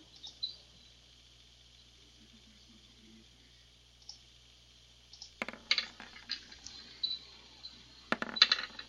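Computer mouse clicks during an online tabletop role-playing session, a scattered series of sharp clicks after a long quiet stretch, some bunched in quick clusters.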